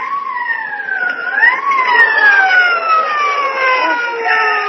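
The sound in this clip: Police car siren wails loudly and continuously, its piercing tone sweeping down and back up before drawing out into a long, gliding cry that persists to the end.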